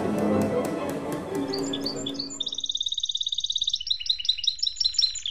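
A pet canary sings a bright, rapid, high-pitched trill of many quick chirps, heard clearly on its own after an opening stretch of low rustling noise.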